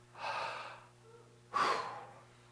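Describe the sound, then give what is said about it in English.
An audience at a church sermon taking a big breath, heard as two breathy rushes of air over a faint steady hum, the second one sharper and louder than the first. “somebody take a big breath.”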